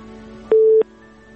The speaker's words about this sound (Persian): بله، فکر کنم متاسفانه تماس اینا قطع شد.